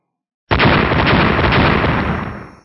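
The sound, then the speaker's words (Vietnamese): A huge explosion booms up from the bottom of a deep abyss, shaking heaven and earth: after a moment of silence a sudden, loud burst breaks into a broad rumbling roar that holds for about two seconds, then dies away. “Một tiếng nổ vang rung chuyển trời đất từ dưới đáy vực sâu truyền đến.”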